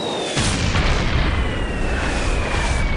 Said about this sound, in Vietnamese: Trong nháy mắt, ở phía trước không xa đột nhiên xảy ra vụ nổ mạnh dữ dội.